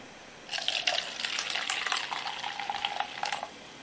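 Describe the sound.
A fizzy malt beverage, a low-alcohol drink, is poured into a glass with a faint, steady bubbly splashing. The pour lasts about three seconds and then stops, with no talk over it.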